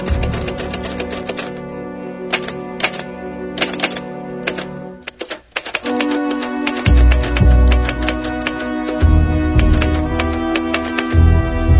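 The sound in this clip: Rapid typewriter keystrokes from a stenographer typing up a statement, a dense, steady stream of sharp clacks with occasional heavier strikes and carriage sounds throughout.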